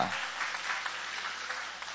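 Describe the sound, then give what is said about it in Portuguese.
Church audience applauding, a faint, steady wash of clapping that holds evenly for the whole stretch without any talk over it. “Toma o vosso assento, guarda a Bíblia e aplaude o nome daquele que vive para sempre. Isso, Jesus, aplaude a ele com alegria.”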